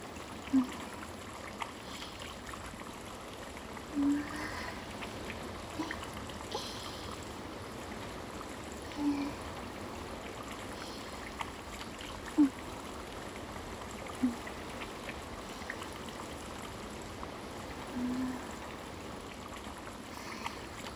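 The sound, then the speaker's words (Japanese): Flowing spring water as a towel is soaked in it, a quiet, steady trickling rush broken by several small, brief splashes and gurgles at irregular intervals. “このマフラータオルをこうやって湧き水にたっぷり浸して、”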